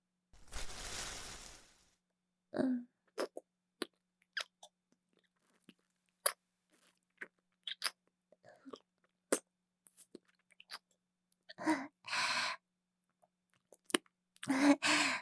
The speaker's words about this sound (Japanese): はい、アイスキャンデー。一緒に食べましょう。